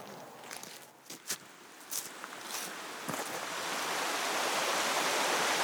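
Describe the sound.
Stream flowing beside people walking through a glade: a steady, fairly faint rush of water that grows fuller toward the end, with a few soft footsteps and rustles early on.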